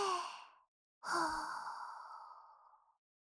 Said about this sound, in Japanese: 一緒に深呼吸して震えを止めよう。